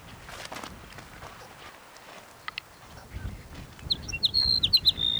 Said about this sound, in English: Sage sparrow number 5.